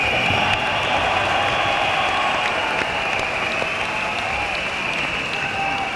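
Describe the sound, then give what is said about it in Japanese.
Concert audience applause, a dense and steady wash of clapping that holds at an even, loud level for the whole stretch without letting up. “もう一度拍手をどうぞお願いします”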